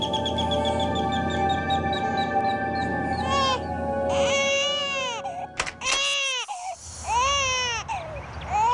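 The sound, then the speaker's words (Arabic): A baby cries loudly and without letup, with high, wavering wails that bend up and down in pitch, broken by a brief catch of breath before the sobbing resumes. “حاجة تبكي حبيبي. بكفي، شو صار لك؟ ليش ما عم تسكت؟”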